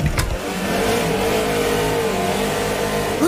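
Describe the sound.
A car engine revs hard as it accelerates during a race, a loud, sustained roar that fills the whole clip after a short sharp knock at the start.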